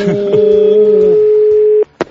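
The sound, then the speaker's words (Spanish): Telephone call signal: a single steady mid-pitched tone held for about one and a half seconds, briefly overlapped by a voice at the start, then cut off and followed by a short click. “Ha recibido una llamada de la universidad nuestro amigo Francisco.”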